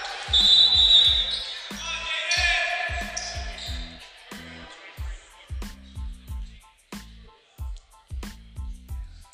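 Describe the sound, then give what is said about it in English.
A basketball is dribbled before a college free throw for Bay College, producing many evenly spaced, dull bounces in a steady rhythm, with a voice talking over the first few seconds. “With a free throw for Bay College. He misses.”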